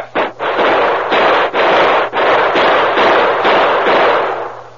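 Gunfire from a group of men shooting at army troopers. A loud, dense volley of overlapping shots forms an almost unbroken roar, with a few brief dips between bursts, and no voices.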